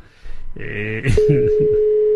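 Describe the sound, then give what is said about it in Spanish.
A telephone call rings unanswered: after a brief voice-like sound, a steady, unbroken mid-pitched line tone sounds loudly and continuously to the end. “No me coge el teléfono ahora, cago en la mar.”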